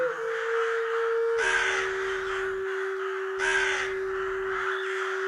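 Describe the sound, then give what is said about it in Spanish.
A crow caws in harsh, rasping bursts, in a calm natural setting at dusk. A steady sustained tone runs underneath the calls. “Mientras percibes la sabia presencia del cuervo, moviéndose con gracia en la rama de un árbol,”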